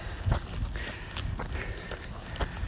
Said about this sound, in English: And I'm going to walk up this bit.